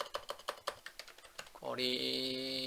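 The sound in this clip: A keyboard shortcut is typed on a computer keyboard as a quick, fairly regular run of light key clicks. A person starts speaking as the typing stops.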